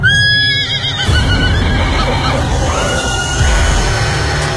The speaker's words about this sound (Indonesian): tiba-tiba ada seekor kuda hanya berjarak beberapa meter di depanku.